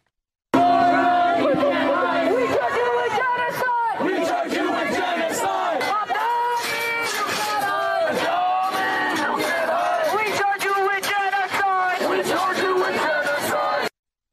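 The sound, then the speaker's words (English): A pro-Hamas crowd yells at Mayor Zohran Mamdani after a vigil, with loud overlapping shouts and chanting voices that run almost without a break. “Post-vigil, a hungry Mamdani then totally flipped the script after getting yelled at by the pro-Hamas crowd”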